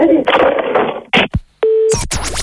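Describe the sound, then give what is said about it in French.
A telephone tone plays after a call is hung up, a short steady beep that comes right after a sharp click, with talk before it and a burst of other noise after. “Bon, allez, je pose le téléphone. Il va faire un monologue. Vous voulez que je vous fasse un monologue? Ouais. Oh, tristesse. Oh, vieillesse ennemie. Que n'ai-je point souffert? Bon, je vais raccrocher, j'en peux plus.”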